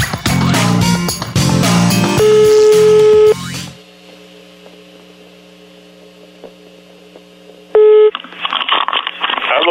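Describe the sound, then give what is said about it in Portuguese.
Telephone tones from a call that kept coming up busy: a steady humming line tone with faint overtones sits between bursts of loud music, with short, higher beeps just before and after it. “eu tava ligando agora só, tava dando ocupado”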